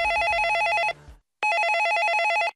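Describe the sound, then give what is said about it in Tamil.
A telephone rings at a police station at night: two loud, bright trilling bursts separated by a brief silence. “ஸ்டேஷன்ல இருந்து கிளம்புறப்ப ஒரு phone call வந்துச்சு.”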